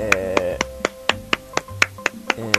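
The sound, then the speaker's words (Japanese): Sharp single hand claps in a steady, evenly spaced series, each a crisp slap laid over sustained tonal music that keeps shifting pitch beneath them. “だから拍手が長い。”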